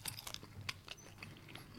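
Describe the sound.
Someone chews a bratwurst with sweet and sticky sauce, making soft, quiet bites and crunchy chewing in small irregular bursts with no talk.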